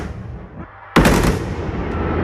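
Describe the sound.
Fireworks fire from line 1 of a launch console with two fire buttons: a sudden loud blast, then a sustained, noisy rushing roar that slowly tapers.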